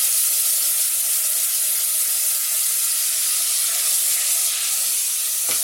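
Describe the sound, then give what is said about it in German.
Tomatoes sizzle as they are tipped into a hot pan of blackened fried onions: a loud, steady, hissing sizzle that runs unbroken throughout with no voices. “Jetzt sind sie eher schwarz. Schnell die Tomaten rein. Das nimmt das hoffentlich so ein bisschen”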